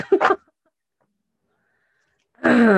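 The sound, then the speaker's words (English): A person clearing their throat with a short, rough two-part rasp, followed by silence and then a voice beginning to speak. “Excuse me. I've had a very, like, lot of gunk in my throat lately.”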